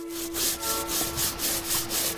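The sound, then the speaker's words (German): Cartoon-style scrubbing of bacteria rubbing someone clean in a sewage treatment basin: brisk, even back-and-forth rubbing strokes repeating in a steady rhythm at moderate volume, with no talk. “So, die Bakterien schrubben mich jetzt schön sauber.”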